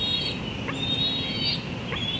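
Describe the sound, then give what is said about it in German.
A bald eagle chick calls from its nest high in a tulip tree in northeastern Washington D.C. in late May, giving a few thin, high-pitched whistling cries over steady background noise. “Da hat wohl jemand Hunger. Es ist Ende Mai und im Adlerhorst hoch oben in einem Tulpenbaum im Nordosten von Washington D.C. zetert ein Küken.”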